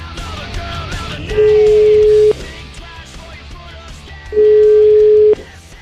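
Ringback tones from a telephone call being placed: two long, steady, loud tones, each about a second, separated by a pause, over a low background murmur.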